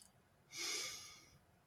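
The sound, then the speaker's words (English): One soft breath is exhaled, a quiet, airy sigh that swells and fades in under a second, during a guided breathing exercise. “And so I'm going to ask you to breathe.”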